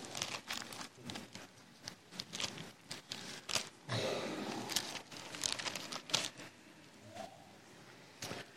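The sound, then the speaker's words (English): Bible pages are turned during a church sermon, heard as many soft, faint papery rustles and crinkles in irregular bursts that keep coming throughout. “Can I just look at another, just go a little further in your Bibles here to another writing of Paul, to the 15th chapter of 1 Corinthians.”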